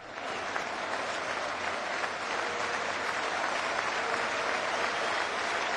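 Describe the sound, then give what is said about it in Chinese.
Football fans applauding their team: dense, continuous clapping holds at an even, loud level from start to finish, with no clear shouts standing out. “Rufen und Beifall.”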